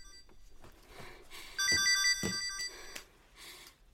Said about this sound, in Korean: 청서방이지? 어여 받아봐.